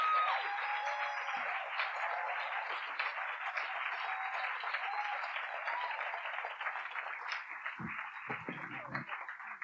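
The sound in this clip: Audience applause welcomes three performers onto the stage at the Greenbelt festival: dense, steady clapping fills nearly ten seconds at an even level and thins slightly toward the end.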